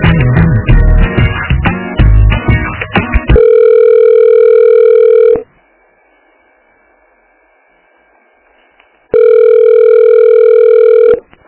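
A loud telephone dial tone while a call is being transferred: after a few seconds of busier sound, a steady tone holds for about two seconds, a quiet gap follows, and then the same tone returns.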